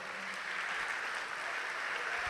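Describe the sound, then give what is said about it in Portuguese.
An audience applauds during a church worship service with a dense, sustained wash of clapping that stays even and fairly faint throughout, with no voices standing out. “Vamos aplaudir o Senhor.”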